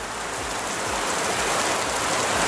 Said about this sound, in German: wenn ich nicht schlafen kann, dann höre ich auf meinem Handy Regengeräusche,